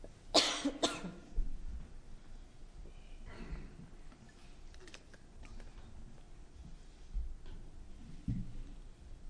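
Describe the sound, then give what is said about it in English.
A person gives a short, loud burst of harsh coughing at the start, followed by quiet rustling and faint ticks. “Sorry, I'm going to cough on you.”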